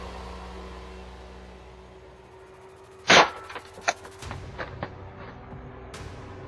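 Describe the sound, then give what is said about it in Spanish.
Gunshots fired at police devices: a loud sharp bang, then a second crisp crack, then several fainter, shorter pops spread over the following seconds, all above a low steady background hiss. “En lugar de obedecer, el tipo le disparó a los aparatos enviados por la policía.”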